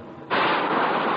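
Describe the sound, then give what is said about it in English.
Decompression aboard the US submarine Sea Lion before a dive, during an underwater demolition team bottom lockout exercise, bursts in as a sudden loud rushing hiss after a quiet moment and holds steady to the end. “That sound you just heard was the decompression.”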